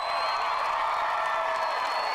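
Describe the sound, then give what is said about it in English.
Crowd cheering and whooping in a packed Dublin Castle, a dense, steady roar of many voices that holds at an even level throughout. “And this afternoon, Dublin Castle was packed with those who wanted to shout about it.”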